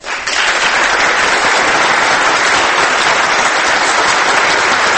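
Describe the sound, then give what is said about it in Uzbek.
Thunderous applause erupts after a presidential oath of office to the constitution of Uzbekistan. It is a loud, dense, unbroken wall of clapping that swells in quickly and stays level throughout. “Keyin chapaklar, gulduros qarsaklar.”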